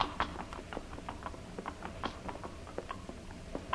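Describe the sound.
Faint horses' hooves clip-clop as riders enter a lamasery gate: many light, irregular knocks in an uneven rhythm, with no voices over them.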